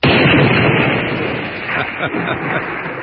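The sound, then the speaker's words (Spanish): A gun fired at a target during shooting practice: one loud blast at the very start, then a long, rumbling decay that fades gradually. “Sostén esta arma. A ver, pues. Dispara al blanco.”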